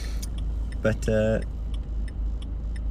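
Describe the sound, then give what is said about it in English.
A car idles and pulls out onto a road junction with a steady, low engine hum. A turn signal ticks faintly at a regular rhythm, and a short voiced sound rises briefly in the middle. “Sorry, I'm just pulling out onto a junction here.”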